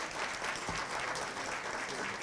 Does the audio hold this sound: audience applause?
yes